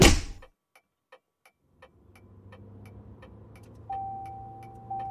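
Car interior sounds as a driver sets off: a thump, a few light ticks, then a low engine rumble that settles into a steady hum, with a sustained electronic tone sounding near the end.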